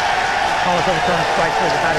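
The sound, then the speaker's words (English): Crowd cheering at Tiger Field, a baseball stadium, after a called third strike on a challenged pitch: a loud, sustained roar that holds steady throughout, with a voice talking over it. “The Tiger Field crowd drowning out Lance Barksdale.”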